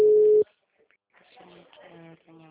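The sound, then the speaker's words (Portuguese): A steady telephone tone sounds after a dropped phone call. It is a single loud burst lasting under half a second and cuts off abruptly. After a short silence, a person starts talking. “Oi, desculpa, caiu a ligação.”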